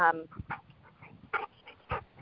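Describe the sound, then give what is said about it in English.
Loud dog barking at home, letting out a few short, sharp barks and yelps with quieter gaps between them. “you have to excuse my loud dog”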